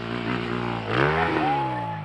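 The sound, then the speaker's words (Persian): A motorcycle engine revs before a jump, a steady drone that climbs in pitch midway and then holds at a higher, fuller note. “دور بیشتر بگیر، موتورت پر باشه، موتورت مرده نباشه. برو”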